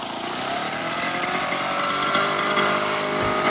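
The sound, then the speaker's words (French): The small engine of an old Solex motorised bicycle runs with a steady, continuous buzzing drone at moderate loudness. It sounds thin, like a lawn mower, with no voices over it. “Oui, c'est pas bien nerveux. Hein. C'est une tondeuse. Mais notre vélo Solex est pas neuf.”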